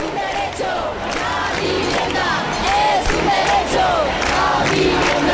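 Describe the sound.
Housing protest crowd in Granada, a loud, continuous mass of voices chanting and shouting, with sharp individual calls repeatedly rising above the din.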